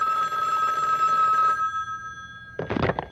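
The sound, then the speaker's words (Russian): A telephone rings late in the evening with a single long, bright ring full of bell-like overtones, which then fades out. “Однажды поздно вечером раздался телефонный звонок.”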